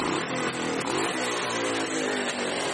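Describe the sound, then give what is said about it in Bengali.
A motorbike carrying a rider and a passenger on the back seat pulls away with a loud roar, a dense, steady engine drone filling the whole stretch without breaks or talk. “বিশুদা প্রচন্ড শব্দ করে bike ছেড়ে দিল।”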